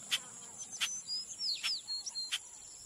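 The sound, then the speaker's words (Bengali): Calls of unknown birds in a forest: a few sharp high chirps and thin whistled sweeps, faint and scattered over a quiet hiss. “এই বনে গিয়ে সুজন 3টে নাম না জানা পাখির ডাক তুলল।”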